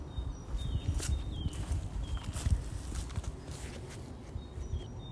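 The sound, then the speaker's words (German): Footsteps of a person walking outdoors while talking, a soft, steady patter of steps with a few faint high bird chirps above. “Ja, ich werde offensichtlich immer langsamer, wenn ich ähm, rede und laufe, sodass mich schon Fußgänger überholen.”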